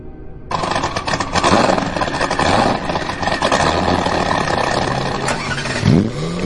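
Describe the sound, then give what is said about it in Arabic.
A car engine starts abruptly and runs loudly with a rough, clattering drone, holding steady before a brief rev near the end. “الهدوء اللي مال المكان اتكسر بمجرد ما احنا سمعنا صوت محرك عربية جد إدموند”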